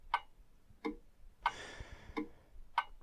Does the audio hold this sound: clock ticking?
yes